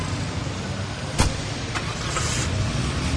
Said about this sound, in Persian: کسرا سوار ماشین میشه و میره